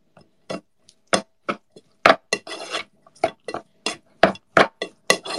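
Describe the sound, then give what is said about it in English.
Scraping and clinking of a utensil mixing ingredients with vegetable oil in a bowl: many short, separate rasping strokes with glassy clinks, each stroke sharp at the start and quickly fading, heard alone. “Mix it all up.”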